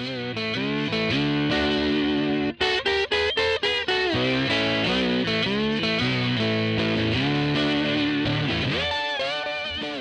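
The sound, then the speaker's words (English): A blistering, distorted slide guitar solo plays on the hymn Amazing Grace, with sustained gliding notes, a brief burst of choppy stabbed notes early on, and loud, fuzzy tone throughout. “He did some blistering slide guitar.”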